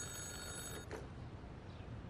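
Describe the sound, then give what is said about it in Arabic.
A telephone rings faintly with thin, high tones for under a second, then stops, leaving a low hiss. “التليفون عم يرن”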